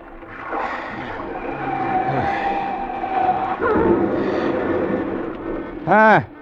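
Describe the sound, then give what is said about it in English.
A car skids on a road: a long, rough tire skid over a roaring engine and wash of noise, ending with a short, loud tonal burst. “Looks like another wreck on Zuma Grade.”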